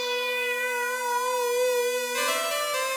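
A detuned additive synth part, soloed, holds a thick, buzzy sustained tone with a steady stack of harmonics. It turns brighter and noisier for about the last second.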